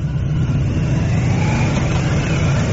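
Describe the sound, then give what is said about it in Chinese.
A car pulls out of the Diaoyutai State Guesthouse to join an official motorcade, giving a steady, loud, low engine rumble that drones on without any talk. “现在从钓鱼台国宾馆驶出的友谊勋章获得者乘坐的车辆准备汇入礼宾车队。”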